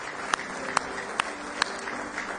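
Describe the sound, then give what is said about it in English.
An audience clapping in praise during a church service: four sharp, evenly spaced hand claps ring out over a low, steady background hum, each clap short and bright. “Give him one more hand clap of praise if you love him this morning with all your heart.”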